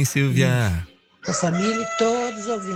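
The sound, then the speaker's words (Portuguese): A rooster crows late in the day, a loud, drawn-out harmonic call that mixes with a woman speaking before and during it. “Olha o galo cantando, hein? Ô, meu Deus, tá cantando tarde esse galo, hein, Silvia? Acho que perdeu a hora hoje”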